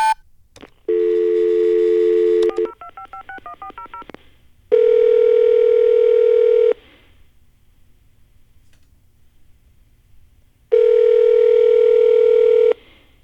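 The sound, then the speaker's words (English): Electronic telephone tones on an answering machine: three long, steady beeps of about two seconds each, separated by silence. A quick run of short stepped beeps follows the first. “So, leave your message at the beep.”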